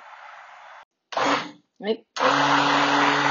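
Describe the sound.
An electric mixer beats a semi-liquid batter in bursts of whirring motor noise. It stops and restarts, with a brief voice heard in a pause, then settles into a steady, even whir.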